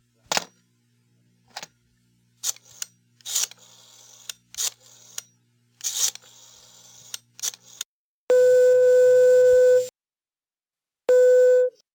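A telephone is dialed with a run of irregular sharp clicks, followed by a busy signal: a steady, loud beep tone that sounds twice, separated by a short silence.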